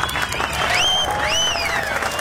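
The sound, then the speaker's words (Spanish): Crowd applause and cheering for an operator and producer, a dense, steady clatter of clapping with whistle-like tones rising and falling above it, sustained throughout. “Un aplauso para el operador, para el productor.”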